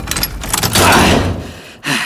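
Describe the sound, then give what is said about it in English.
Loud metallic clanking and rattling as a padlock is taken off a two-inch-thick steel door, with jangling hardware and scraping, then a brief pause before another heavy clank. “No crowbar required to remove that padlock. And the door? That's 2 inches of steel!”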